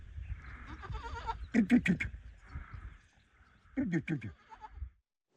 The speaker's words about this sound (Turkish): Çakır, annelerini emmekte zorlanan yavrulara biberonla süt veriyor. Diğer hayvanlar meralara çıkarken özel ilgi bekleyen kuzu ve oğlak evin yanındaki korunaklı alanda bakılıyor.